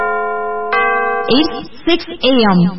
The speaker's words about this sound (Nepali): साहिनो समय सूचक अहिले बिहानको 6 बज्यो